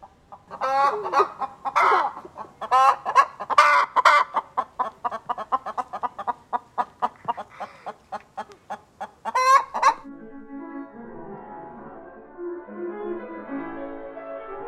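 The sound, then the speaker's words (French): Hens cackling together, captured on a smartphone: many rapid, overlapping clucks and squawks in rhythmic bursts for about ten seconds, then the cackling stops and softer, sustained tones take over. “elles se mettent à caqueter tout ensemble. On a l'impression qu'il y en a une qui a raconté une blague et que l'autre se marre à côté. Du coup, l'autre jour, j'ai sorti mon smartphone et je les ai enregistrées.”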